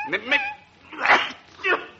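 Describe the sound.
A dog whining gives a few short, high-pitched whimpers and yips separated by brief pauses, clear and alone.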